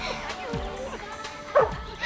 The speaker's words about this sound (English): Oh, you got me a dog. Oh, he's adorable. Oh, you're such a cute dog.